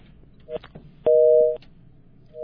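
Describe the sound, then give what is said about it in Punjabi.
A telephone busy tone as a call drops: steady two-tone beeps that start, stop and start again, one long and clear, over faint background noise. “Welcome ਆ ਜੀ ਕਾਲ ਲੱਗਦੀ ਕੱਟ ਹੋ ਗਈ ਆ”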